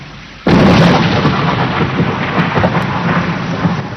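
Heavy rain with thunder begins with a sudden, loud thunder crash that settles into a sustained, broad roar of pouring rain, with faint rumbling continuing underneath.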